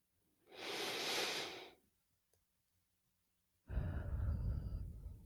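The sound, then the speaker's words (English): People taking a deep breath together during a prayer: a long, airy, hissing inhale, a few seconds of near silence, then a fuller, lower exhale that carries on to the end. “would you just do this with us one last time? Would you just take a deep breath?”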